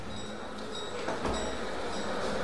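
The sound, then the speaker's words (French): Steam trains at a Paris railway station in an 1886 setting make a dense, continuous rumble with a hissing wash of steam, steady and fairly loud throughout with no clear pauses. “Là on est sur un boulevard parisien, en juillet 1886, on se dirige vers la gare, donc on entend finalement la vapeur des trains.”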